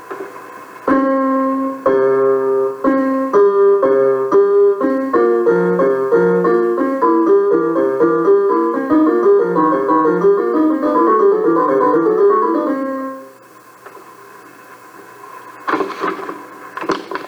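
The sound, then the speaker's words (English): Two musical scales played together, one ascending while the other descends, so the steady stepped notes cross each other. The clear, evenly paced tones run for about twelve seconds before fading to a much quieter tail. “Playing the scales together sounds like this.”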